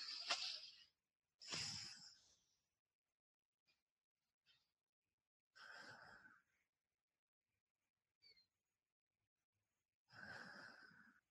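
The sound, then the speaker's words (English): Faint, airy breaths through one nostril with the other side closed, during a calming breathing exercise: four slow, hissy breaths separated by long silences. “So if you're going for energy, close off your left side. If you're going for calm, close off your right side. And I'm going to do it with you. Let's just take a few breaths like that.”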